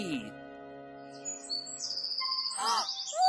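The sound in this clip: A bird chirps as it flies up high: several bright, whistling tweets and sweeping high-pitched calls follow one another, with a brief lower note at the start.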